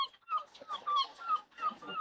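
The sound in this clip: Seagulls call in a few repeated, harsh squawks that rise and fall in short bursts, fairly faint over a soft, steady background wash.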